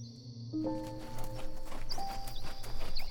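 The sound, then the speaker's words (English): Hooves clip-clop as two unicorns walk down a winding road, a steady rhythmic clopping with sustained soft tones running beneath. “Sprinkles and Sparkles were walking down the winding road after a lazy morning of laying in the meadow.”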